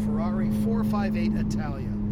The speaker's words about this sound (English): So now we're dancing the car through the section of the track we call the S's. They're very twisty. This car is very nimble. It's a Ferrari 458 Italia.